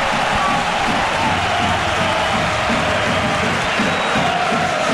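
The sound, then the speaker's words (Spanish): A football stadium crowd roars during a Málaga attack, a loud, steady wall of cheering and shouting that holds without a break throughout. “no hay remate, despeja y vuelta a empezar, el público se vuelve loco.”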